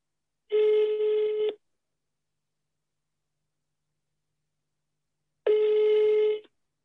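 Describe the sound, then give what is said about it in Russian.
Ringback tone of an outgoing telephone call: two identical long buzzing rings, each about a second long and separated by roughly four seconds of silence. “Ну что, звоним? Да. Набирай. Набираю.”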